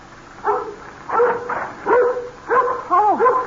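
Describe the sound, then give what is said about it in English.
A dog barks inside an old lady's house, giving several short, whiny barks and yips spaced about half a second apart, moderately loud, with no voices over them. “now you stop your barking now”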